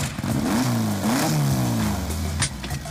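Loud revving engine of a lowered Volkswagen Beetle on sports tyres, built for street racing, its droning pitch climbing and dipping repeatedly as the throttle is worked.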